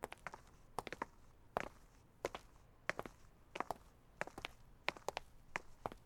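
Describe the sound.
Faint footsteps of people walking: many light, evenly paced steps, often in close pairs, with quiet gaps between them.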